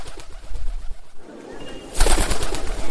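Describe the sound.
A dove gives low, soft, repeated coos after landing nearby, set against a steady hiss of background noise that grows louder toward the end.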